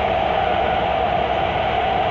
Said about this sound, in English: Train Hot Dog, a podcast where I talk to myself on a train